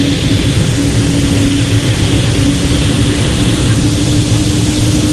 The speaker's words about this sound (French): Voilà, on continue à mettre les gaz à bord de cette A400M.